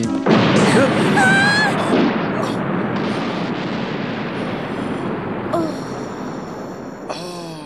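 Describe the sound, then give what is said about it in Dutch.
A loud explosion that sets off a huge fire, in an animated story, bursts suddenly at the start and then decays into a long, rumbling roar that slowly fades over several seconds. “In de verte zien ze een enorme vuurzee die veroorzaakt is door de explosie.”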